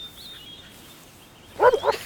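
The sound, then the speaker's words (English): A dog barks, giving a few quick, loud barks near the end after a stretch of quiet background hiss. “Come on, dog!”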